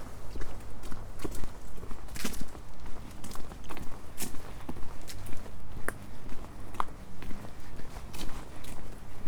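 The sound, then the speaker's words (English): Footsteps walking through Swanville Nature Reserve, with many footfalls in a steady, even rhythm throughout. “I seem to be walking through Swanville Nature Reserve. Must be close to Swanpool now.”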